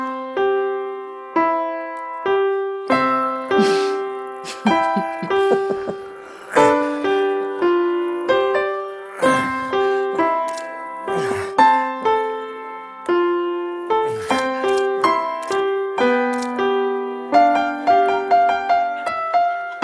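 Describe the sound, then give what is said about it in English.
A seven-year-old child plays the piano, striking a simple tune of single notes and small chords that ring and decay, in short uneven phrases with brief halting pauses between groups. “I want to remind you of what a seven-year-old child sounds like when he plays the piano.”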